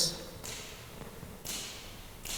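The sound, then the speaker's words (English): A cane tapped on the floor of a room gives a few sharp cracks spaced roughly a second apart, each trailing off in a short echo. “Similarly, if I crack my cane, I don't know if you can hear that very well, but try. Hear how”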